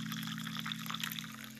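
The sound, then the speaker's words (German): Coffee poured into a cup makes a steady, continuous liquid trickle with a faint, even low hum beneath. No one speaks. “Ich gieße mir jetzt etwas Kaffee ein.”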